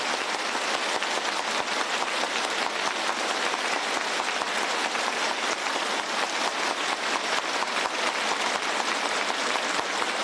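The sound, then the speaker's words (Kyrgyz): Teacher and students applauding warmly, standing as the heads of two parties arrive at their school; dense, continuous clapping holds at an even level for the whole stretch. “Жунго Чаушен эки партиянын баш ужилери жетип келгенде окутуучу окуучулар чогуу ордунан туруп эки партиянын баш ужилерине кызуу кол чапты.”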